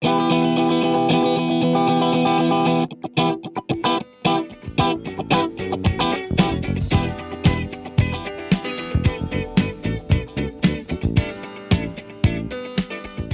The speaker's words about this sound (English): press your left hand alternately up and down so that only certain chords are highlighted and other ones just become this kind of rhythmic, well, chuck sound.